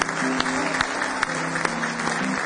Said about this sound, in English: Now give Him one more hand clap of praise.